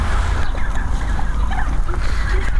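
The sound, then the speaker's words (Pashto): A flock of turkeys raises a dense, continuous clamor of gobbling and calling at feeding time as a farmer scatters corn kernels, loud and steady throughout. “فیل مرغانو هم د خوړو په لیدو سره شور جوړ کړي.”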